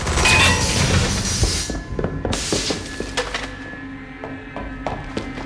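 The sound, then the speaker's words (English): Gunfire erupts as a soldier opens fire and gives chase: heavy, loud bursts at the start, then scattered sharp reports and thuds that gradually thin out. “Sarge opens fire and chases after it.”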